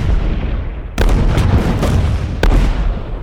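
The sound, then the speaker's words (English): Booms from a ferocious Turkish artillery barrage at Gallipoli: two heavy blasts with crackling bursts stand out over a constant low rumble, the second arriving about a second and a half after the first. “After killing Abdul, the Turks spotted their position and sent over a ferocious artillery barrage”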